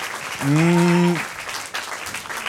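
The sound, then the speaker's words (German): Audience applause at a game show, a steady wash of clapping with a brief voiced tone rising over it near the start, then easing to a softer patter. “Das ist nochmal euer Applaus, wollte ich sagen.”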